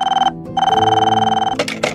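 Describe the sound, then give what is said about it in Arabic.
A phone rings suddenly late at night with a bright warbling electronic tone. It comes in two bursts, a short one and then a longer one of about a second, followed by a brief noisy clatter. “كانت الساعة قد قاربت الواحدة صباحا، وأنا أتأمل في السقف حين رن هاتفي فجأة.”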